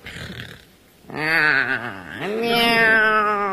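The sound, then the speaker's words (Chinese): A voice imitates a lazy cat's meow during a comic dialogue, with two drawn-out, wavering meows, the second longer and higher. “这是个懒猫。”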